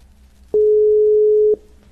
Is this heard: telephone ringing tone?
yes